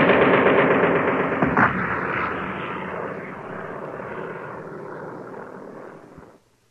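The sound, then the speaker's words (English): An aircraft drops bombs on a bridge in a staged radio-drama effect: a loud engine roar with a sharp burst early on, then a slow fade over about seven seconds. “Now! Bombs away! We hit it, Major! We got the bridge!”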